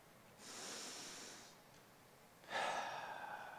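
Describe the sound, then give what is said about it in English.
Deep breathing in two long, soft, airy breaths: a slow breath in, a pause, then a stronger breath out, with no speech. “I'm going to invite you to take a couple of deep breaths with me.”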